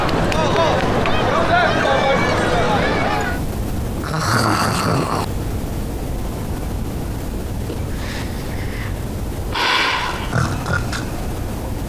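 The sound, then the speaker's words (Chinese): Loud snoring from a sleeping woman, a few rough, grunting breaths that come after a short stretch of talk, over a constant background hiss. “你姐这呼噜打得比你爸还”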